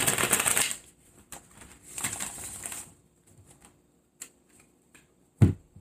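Tarot cards being shuffled: two bursts of crisp riffling papery rustle, followed by a few scattered light taps and clicks, then one sharper knock near the end.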